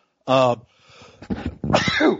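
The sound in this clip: A single loud, sharp sneeze bursts out at the start, then people talk.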